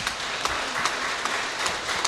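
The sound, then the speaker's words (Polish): Audience applause for a group of young people at a Polish history event: a dense, steady patter of many hands clapping, fairly quiet and even throughout, with no voices. “Gorące brawa dla nich.”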